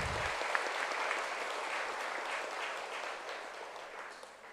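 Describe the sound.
Applause at a Buddhist Nirvana Day commemoration, a sustained, even wash of many hands clapping that eases slightly toward the end.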